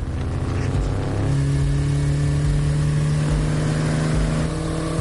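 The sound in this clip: A taxi drives along an avenue, giving a continuous, loud engine drone with a steady low hum that holds throughout.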